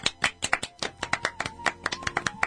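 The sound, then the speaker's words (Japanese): Hands clapping at a Kyushu University student program meeting: many crisp, distinct claps in quick, slightly uneven succession, loud and alone. “はい、拍手、”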